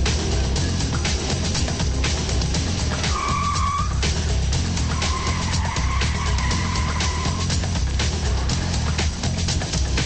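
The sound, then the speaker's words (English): A black BMW drives along with steady, loud road and engine noise throughout, broken by two drawn-out tire squeals. “He's in a black BMW, LQY A19er, westbound on Vermont.”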